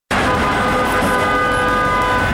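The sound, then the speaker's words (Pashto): A loud, steady horn-like tone blares over engine and road noise as a grey military ambulance with a red light on its roof leaves a government hospital in Bost. It holds without a break. “د خړ نظامی امبولانس پر سر سره اشاره لګیږي او په صورت د بوس دولتي روغتون څخه د وتلو په حال کې دی.”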